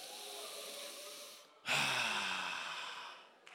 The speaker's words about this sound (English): Everybody, right now, I want us to take a deep breath on three.